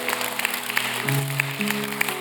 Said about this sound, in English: Yeah, you guys can clap.